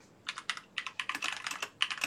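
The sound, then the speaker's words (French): Someone types a Google search on a computer keyboard: a quick, uneven run of many crisp keystroke clicks, some in tight bursts, with no talk. “Fais juste écrire dans ton, dans ton Google pizza fait au Québec”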